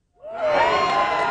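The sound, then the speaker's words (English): Young children, incoming transitional kindergarten and kindergarten students, cheer and shout at the opening of a brand new public school in Mission Bay, San Francisco. After a brief silence the excited cheering swells quickly and holds loud and steady. “That's the sound of incoming TK and kindergarten students opening a brand new school in Mission Bay.”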